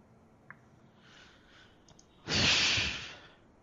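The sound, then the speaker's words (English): A loud breath into a microphone: a single heavy rush of air, close and harsh, lasting about a second, after a few faint clicks in quiet. “Oh, that breath is going to sound horrible.”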